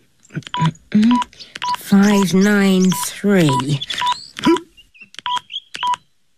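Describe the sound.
Keypad tones as a phone number is dialed: a series of many short, evenly pitched electronic beeps in an irregular rhythm, with a voice speaking over the middle stretch.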